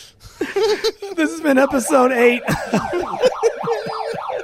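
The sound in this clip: A siren sound effect wails rapidly up and down in a regular pattern through the second half, under people talking and laughing.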